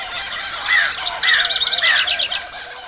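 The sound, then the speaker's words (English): Roadrunner calls: a series of bright, rapid chirps and a few clear, arching whistled notes, repeated at a steady rhythm, loud and alone. “Yet again, cartoons have lied to us. The Roadrunner does not actually say meep meep.”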